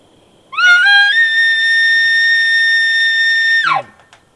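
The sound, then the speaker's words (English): An elk contact location bugle made by a person on a grunt tube: one squeal rises into a long, steady, high-pitched whistle held for about three seconds, then drops sharply at the end. It sounds alone, with no talk. “This is going to be basically just a contact location bugle.”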